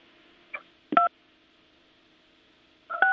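Telephone line tones after a caller has disconnected: two short, loud, dual-pitched beeps about two seconds apart, preceded by a soft click, over faint line hiss.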